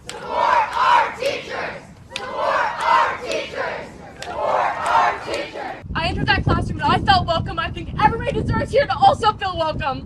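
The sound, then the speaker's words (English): Students at a protest walkout outside the offices of Renaissance High School in Meridian, Idaho, chant in loud rhythmic bursts, and a denser, rowdier crowd roar follows. “The students gathered outside of the offices, chanted, protested, and gave speeches.”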